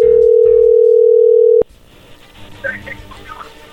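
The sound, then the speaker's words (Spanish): A telephone line when a call is placed: a loud, steady dial tone held for about a second and a half, then cut off abruptly, leaving faint, uneven line noise. “Bueno, vamos a marcarle a ver qué pasa.”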